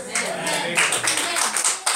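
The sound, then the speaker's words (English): Hands clap in a church worship service, a lively run of quick claps that goes on under voices speaking and calling out. “Clap your hands to Jesus.”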